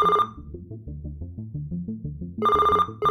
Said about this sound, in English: looks at the caller ID, which must have been a number he didn't recognize, and answered